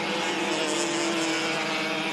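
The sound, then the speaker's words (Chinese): Race cars enter a corner on a racing circuit with a continuous, loud engine drone. A sustained buzzing note runs steadily under broad roaring noise, and no voices are heard. “前面的两台车来到12号弯入弯”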